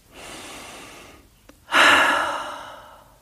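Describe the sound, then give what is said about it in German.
A slow breath drawn in and then let out during a guided relaxation exercise. A softer, airy inhale comes first, then a brief pause, then a louder, fuller exhale that gradually fades, with no talking. “Atme durch die Nase ein, durch den Mund wieder aus.”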